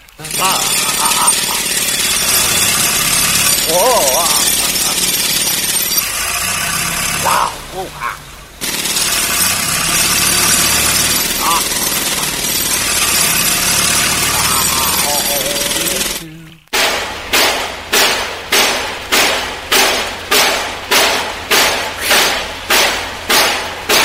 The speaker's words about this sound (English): I'm going to have to drill here.